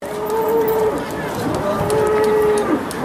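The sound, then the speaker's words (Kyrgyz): Cattle mooing at a livestock market in Istanbul set up for Eid al-Adha: two long, drawn-out moos with a steady low pitch over constant background noise. “Бул Курман айтта Стамбул шаарында 209 жерде атайын мал базары уюштурулган.”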